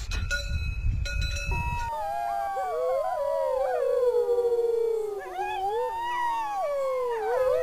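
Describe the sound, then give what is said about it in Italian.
A howl rings out to call wild wolves to answer. After a short burst of noise, long wavering howls follow, with several overlapping tones that slide and mostly fall in pitch. The howls are clear and sustained, with no talk. “Dopo questo ululato aspetteremo 2 minuti che i lupi rispondano.”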